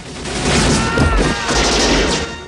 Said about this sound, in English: Forrest shoots a man in a green hat, then he fires at a second man.